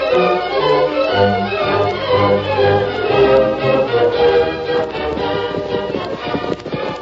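Horses' hooves clip-clop as riders come into a small town, a steady patter of hoofbeats blended beneath continuous music.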